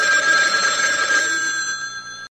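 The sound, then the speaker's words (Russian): A telephone ringing: one continuous, loud, steady electronic ring that holds for a couple of seconds and then trails off. “Я надеюсь, ты прерываешься только из-за срочного телефонного звонка.”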